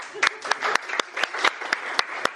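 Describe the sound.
Applause breaks out at a gathering honouring northerners, with steady, rhythmic claps about every quarter second over a continuous patter of hands, fairly loud throughout.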